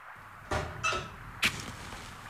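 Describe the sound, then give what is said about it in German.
An oven door flap is opened in a German radio drama so a letter can be burned: three short, sharp knocks and clanks of the metal flap, evenly spaced over a low steady background. “Ja, im Ofen. Öffnen Sie die Klappe.”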